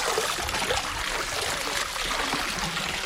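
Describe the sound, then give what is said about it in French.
Soaped laundry being rinsed in water at a washhouse produces continuous splashing and trickling, an even wash of water noise that stays moderately loud with no pause. “Alors, une fois que le savon a bien été étalé, de le rincer à nouveau dans l'eau.”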